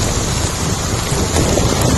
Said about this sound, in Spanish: Es sonido de la localidad sevillana de Lebrija, donde una tromba de agua ha ocasionado numerosas incidencias.